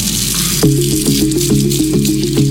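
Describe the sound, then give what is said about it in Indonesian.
Tap water runs steadily as someone washes their hands with soap. A continuous, fairly loud hiss of flowing water, with no talk. “Ya enggak deh, aku cuci tangan bentar.”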